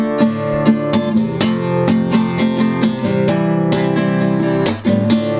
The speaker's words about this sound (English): Here's my four bar progression. It's D minor, F, C, and D minor. And it sounds like this.